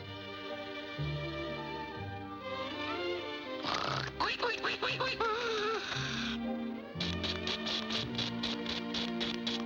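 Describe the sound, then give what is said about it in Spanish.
A cartoon duck's mating call: faint, honking quack-like calls that step between low held notes, broken by rapid buzzy bursts in the middle and again near the end. “Graznido de apareamiento.”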